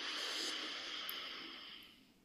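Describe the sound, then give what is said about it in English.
A deep breath drawn in through the nose during a guided relaxation exercise: a single soft, airy hiss of inhaled air, steady and faint, thinning out toward the end, with no talk. “And one last breath in through the nose”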